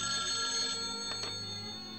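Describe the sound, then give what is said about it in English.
A telephone rings at a holiday dinner table, a steady, continuous electronic ringing tone that holds at an even level for about two seconds, with no talk over it. “Kelly and Clovis anxiously eye the phone. I'll get it.”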